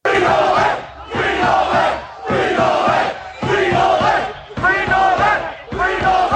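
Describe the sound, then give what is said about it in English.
A crowd of Novak Djokovic's supporters chants at a protest against his detention at a hotel, shouting one short phrase in unison six times in loud, rhythmic bursts with brief gaps between. “Well, that is the sound of tennis star Novak Djokovic's supporters demonstrating against his detention at a hotel while awaiting an Australian judge's ruling on his vaccine exemption.”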